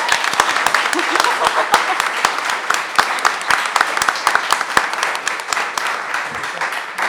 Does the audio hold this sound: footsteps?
no